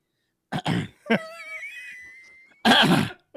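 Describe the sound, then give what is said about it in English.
A man clears his throat: rough, raspy bursts open and close the sequence, with a drawn-out, wavering voiced rasp between them. “Everybody listening at home, listen for the throat clear because he's stepping into SpongeBob mode.”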